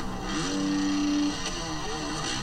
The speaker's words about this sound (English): Oh, that rev, that panic rev in the air is